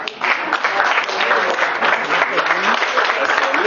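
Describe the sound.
Audience applause, a thick, even wash of many hands clapping at a steady loudness for nearly four seconds, with faint voices mixed in beneath.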